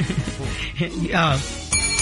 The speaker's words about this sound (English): There you go. The real bell.